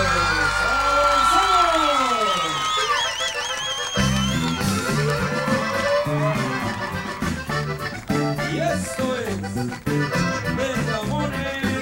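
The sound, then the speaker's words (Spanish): A concert crowd cheers and whoops at a 1992 live show in Phoenix, Arizona, with loud shouts over the first few seconds, then the band's music starts and the crowd noise continues underneath. “Gracias por sus aplausos.”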